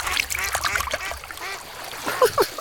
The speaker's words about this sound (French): Parfois, on voit un canard passer.